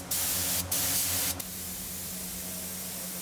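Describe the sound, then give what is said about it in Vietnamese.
A paint spray gun sprays paint onto products in a workshop, giving a loud, steady hiss with two stronger bursts at the start, then an even rushing spray over a low mechanical hum. “Chỉ với chiếc máy phun sơn này, một ngày có thể hoàn thiện hàng trăm sản phẩm.”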